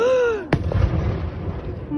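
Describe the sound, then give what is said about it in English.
An explosion during an attack on two Russian warships in Sevastopol, Crimea: a woman's cry is abruptly cut by a single sharp, loud blast, followed by a sustained low rumble. “A woman cries out. She's seen an explosion. It's an attack on 2 Russian warships stationed in Sevastopol.”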